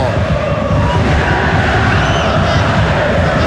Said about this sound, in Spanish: Mira, mira, la gente de Católica. ¡Dame sonido ambiente,